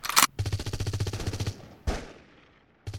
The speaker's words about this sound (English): Hold your fire, everyone. Those are conventional weapons. These guys were using laser weapons. It sounds like a lot of conventional weapon fire.